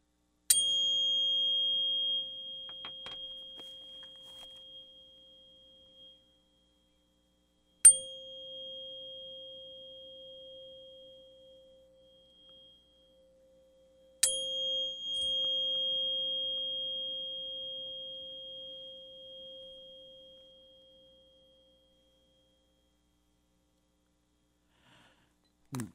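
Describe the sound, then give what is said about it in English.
A 528 hertz tuning fork is struck three times; each sharp tap gives way to a pure, steady ringing tone with a faint higher overtone that slowly fades over several seconds. “So with that, I'll play this 528 tuning fork”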